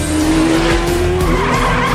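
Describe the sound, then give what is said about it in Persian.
Tires screech as a race car skids and drives off, a loud, continuous squeal over a steady engine roar that lasts the whole moment. “باشه خب بریم ماشین سواری.”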